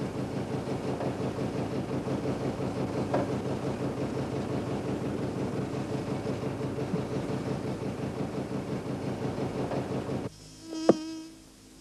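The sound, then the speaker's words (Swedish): Wasps buzz around a building they nest in, a dense, steady droning hum that holds for about ten seconds before cutting off, followed by one brief sharp sound near the end. “Säg inte att de där förbaskade getingarna bor kvar här i år också.”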